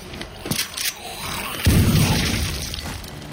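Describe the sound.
A shotgun blast fired from a doorway: one heavy, booming report midway with a rumbling tail, after a few faint knocks.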